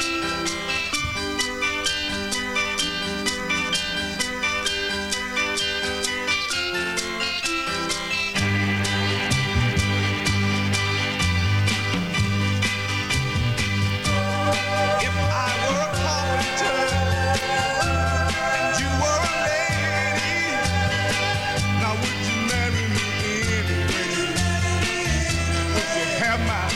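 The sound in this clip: A recorded soul song plays with full band instrumentation and a steady beat. A deeper, bass-heavy section enters about eight seconds in and continues with busier melodic lines.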